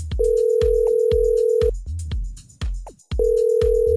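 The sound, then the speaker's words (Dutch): Ringback tone on an outgoing telephone call: two long, steady mid-pitched tones separated by a pause, set over a rhythm of sharp percussive beats. “in deze rubriek ga ik meteen eens even iemand bellen. Ik hoop dat ze opneemt.”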